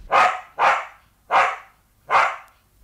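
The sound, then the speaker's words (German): A white terrier barks four times, each bark sharp, bright and loud, spaced roughly evenly with short silences between them and no other sound. “ein Hund, ein weißer Terrier, der auf den Namen Nipper hörte”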